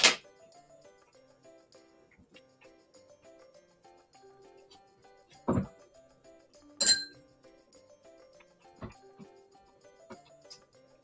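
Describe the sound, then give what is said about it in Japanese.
Utensils clinking against a cooking pot as miso is added to a simmering hot pot: a few sharp, bright metallic clinks spaced seconds apart, with softer taps between them over a quiet background. “さあ、ちょっと鍋が出来上がってきた感じなので、お味噌を入れます。”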